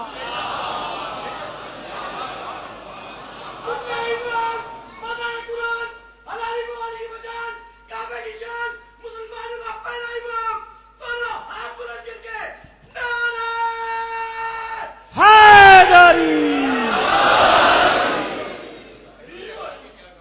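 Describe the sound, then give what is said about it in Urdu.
Crowd shouting the Naara-e-Haidari slogan: a single voice calls out in long, sustained, tuned phrases, then the crowd answers with a loud, swelling roar near the end. “نعرہ حیدری بابا سے بلند نعرہ سلام.”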